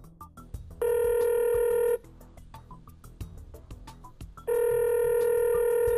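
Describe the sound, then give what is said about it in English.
A telephone rings as a caller is dialed: two long, steady, bright electronic rings separated by a pause of a few seconds, loud and clear over low background noise, with no talk. “Let's give him a shout. Dial him up.”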